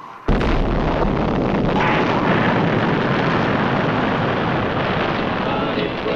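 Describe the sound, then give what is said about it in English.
An atomic bomb explosion in a duck-and-cover civil defense film, bursting in with a sharp onset and swelling into a heavy, continuous rumbling roar that holds steady for several seconds. “Under the table. It's a bomb. Duck and cover.”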